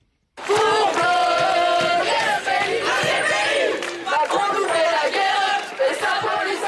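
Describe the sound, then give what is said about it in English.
Loud crowd of students protesting in France, shouting and chanting together in a dense, continuous roar that stays strong throughout with only brief dips. “The sound of protests by students in France.”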